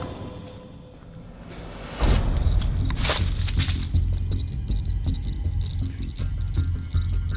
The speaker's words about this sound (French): Je vous avoue, je vais accélérer ma marche. Je passe en mode marche rapide.